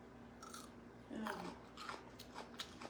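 Faint crunching bites and chewing of pickled gherkins, a few soft crisp snaps scattered over a low, steady background.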